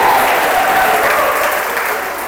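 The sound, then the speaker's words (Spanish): Congregation applause during a church service, a loud continuous wash of clapping that tapers slightly toward the end. “Denle la aplauso a Cristo, por favor, esta tarde.”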